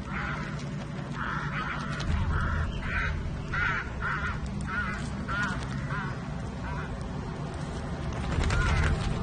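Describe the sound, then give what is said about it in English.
Crows cawing in a quick series of many harsh, repeated calls of similar pitch, heard over a steady low rumbling background. “A crow is on Noreen's back, tearing at her flesh.”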